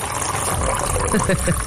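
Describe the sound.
Hot liquid pouring into a thermal aluminium cup, a brief splashing, gurgling fill lasting under two seconds.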